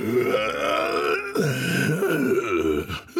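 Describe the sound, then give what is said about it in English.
A man imitates a bear's growl, a raspy, strained vocal rumble like a smoker gasping for breath: one long, loud throaty growl with wavering pitch and a brief break partway through. “in a weak attempt to add authenticity, he growled at everyone,”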